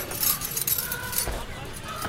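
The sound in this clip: Keys jangle as one is handed over, a few brief, bright metallic rattles and clinks in quick succession.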